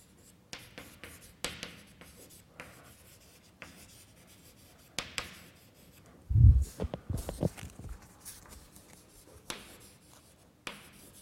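Writing by hand while working through mathematical equations: a series of soft, scratchy strokes and taps, quiet overall, with a louder cluster of rubbing and tapping midway.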